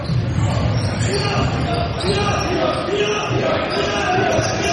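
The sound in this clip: The student section roars and cheers for Owatonna at a boys' basketball game against North Branch, a dense steady crowd noise under a commentator's voice.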